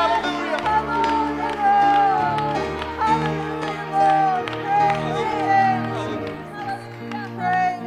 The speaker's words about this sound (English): where it says, clap your hands, all ye people, and shout unto God with a voice of triumph